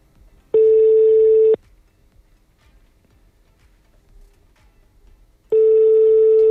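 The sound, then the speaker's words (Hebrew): A telephone call attempt that does not connect: two identical steady tones, each about a second long, separated by a few seconds of near silence. “מנסה לעשות שיחה בהפתעה.”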